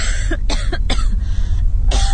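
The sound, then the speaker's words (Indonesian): A woman coughs like a sick person, the sound coming from the floor below: several harsh, raspy bursts in an uneven series with a short pause before the last one. “Batuk seperti orang sakit. Suaranya seorang perempuan.”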